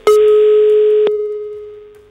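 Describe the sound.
A telephone ringing tone sounds while a radio listener is being called: one steady electronic tone that is bright and full for about a second, then continues thinner and slowly fades.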